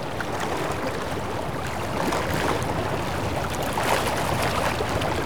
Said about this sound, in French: La houle, le clapotis de l'eau,